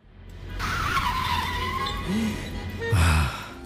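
A car brakes hard as its tires skid, with a loud, sustained screech and a high squealing whine that dips slightly and then holds steady. A heavy, low rumble runs under it throughout.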